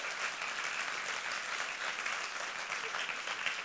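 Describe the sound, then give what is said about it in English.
Audience applause at a church service fills the whole stretch as steady, dense clapping from many hands, even in level, with no voices standing out. “Would you give this man a round of applause again?”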